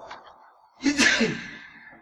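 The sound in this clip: A single sneeze bursts out during a religious jurisprudence lesson: a quick breathy intake, then a loud explosive nasal burst that trails off.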